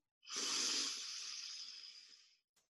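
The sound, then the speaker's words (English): A single deep breath drawn in through the belly during guided meditation: a long, airy hiss of about two seconds that swells quickly, then slowly thins out and fades, heard alone with no talk. “Deep breath into the belly.”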